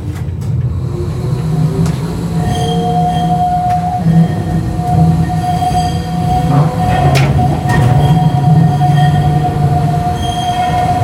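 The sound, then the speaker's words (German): A tram rolls slowly off its depot grounds at about 10 km/h. The rumble is steady and loud, high wheel squeals hold along the rails, and a few sharp metallic clicks cut through near the end. “So, jetzt geht's los. Die Bahn verlässt das Gelände.”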